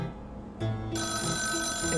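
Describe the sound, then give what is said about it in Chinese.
A mobile phone ringtone goes off as a film is about to start, its bright electronic tones cutting in abruptly partway through and then sounding steadily over a quiet background hum. “手机要关静音啦，不然这样会吵到别人欸。”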